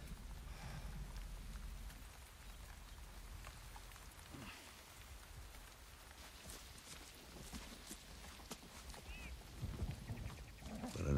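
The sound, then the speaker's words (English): Steady rain falls in a soft, continuous patter of drops on surfaces, faint and even throughout, with a slight swell toward the end. “And the endless rain, of course. I think we might have manufactured some here so you could see it.”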